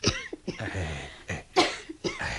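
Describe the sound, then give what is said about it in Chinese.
A few short, throaty coughs from phlegm raised after drinking sweet soup, fairly faint, with separate bursts broken by brief pauses and breaths. “我吃了一些糖水惹起一些痰而已，喉咙痕起上来就咳两声了，其实没什么事的。”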